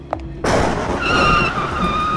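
A sports car speeds along in pouring rain. Its engine and tire noise burst in suddenly after a brief quiet moment, then hold as a loud, steady rush to the end.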